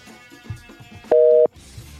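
A busy signal on a phone call that fails to connect: one short, steady two-tone beep, moderately loud, stands out from faint background noise.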